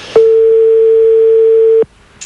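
A telephone ringing tone on a late-night outgoing call to a household: one long, steady, loud tone lasting about one and a half seconds that then stops abruptly, with brief noise at each end.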